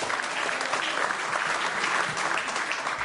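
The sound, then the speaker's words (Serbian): Audience applause in a concert hall at the close of a literary evening: a continuous, dense wash of many hands clapping, even and unbroken throughout. “Evo ovaj divan aplauz”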